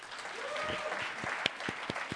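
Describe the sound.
Scattered applause from an audience at a talk: soft, sparse clapping with several sharper individual claps in the second half.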